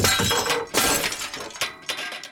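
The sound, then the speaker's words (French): Glass shatters upstairs in a castle: a loud, bright crash of breaking glass followed by a few more bursts of splintering and tinkling shards, with no voices. “Soudain, un bruit fracassant de verre brisé retentit à l'étage.”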